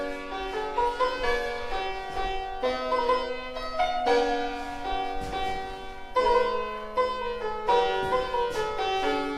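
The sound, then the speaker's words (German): An antique square piano from 1776, with a mahogany case, plays a flowing melody over sustained bass notes. Its bright, slightly thin tone is continuous and moderately loud. “So also klingt ein beinahe 250 Jahre altes Tafelklavier. Mit seiner Oberfläche aus Mahagoniholz ist es ein Schmuckstück, aber vor allem natürlich ein tolles Instrument.”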